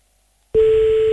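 Telephone ringback tone sounding while calling someone back: after about half a second of silence, a steady single-pitched electronic tone starts abruptly and holds unbroken to the end.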